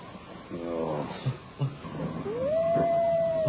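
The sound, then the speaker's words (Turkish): Wolves howl: one long howl rises and then holds a steady, clear tone for over a second, after quieter low sounds and a few soft thumps. “Duydun mu? Duydun mu? Kurtlar yine başladı.”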